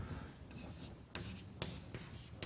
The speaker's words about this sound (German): Also, ich schreibe jetzt einfach nochmal das ab, was oben drüber steht.